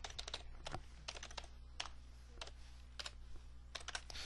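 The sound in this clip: Typing JavaScript code on a computer keyboard: faint, irregular clusters of quick key clicks with brief pauses between them, alone without any talk.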